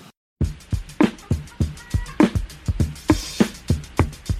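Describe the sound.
A sampled drum loop from a funk record, with punchy kick and snare hits in a steady, upbeat groove under a bright cymbal wash. It begins after a brief silence and then repeats many hits, loud and alone with no talk.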